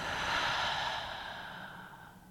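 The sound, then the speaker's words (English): A long, deep breath exhaled through the mouth closes a guided breathing exercise. It is a single, soft, airy whoosh that starts full and slowly fades as the lungs empty, heard alone without talk. “Last one, biggest breath yet. Inhale through the nose. Exhale through the mouth.”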